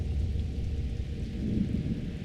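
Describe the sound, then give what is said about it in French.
Rain falls steadily during a night thunderstorm, its dense hiss layered over a continuous low rumble of thunder at an even loudness throughout. “un orage, zébrant la nuit d'éclairs majestueux, est en train de s'éloigner.”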